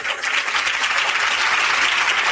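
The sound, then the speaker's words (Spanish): Applause from a church audience, sent to the people watching the service: steady, dense clapping at a moderate level that carries on evenly without pause and with no talking over it. “Ahí les mandan un aplauso.”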